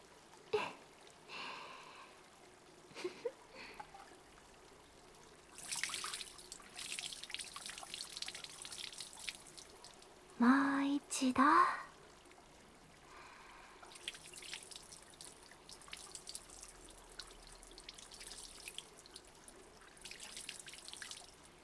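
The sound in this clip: Water poured over a person's back during a bath: intermittent drips, trickles and splashes in a few separate bursts, with a louder rush of pouring near the middle and no talking.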